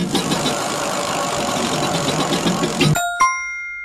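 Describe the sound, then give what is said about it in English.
A prize wheel spins with a continuous loud whirring rattle for about three seconds, then stops abruptly. A bright, ringing chime follows and fades out. “And now let's spin this wheel and find out who's winning a swag bag.”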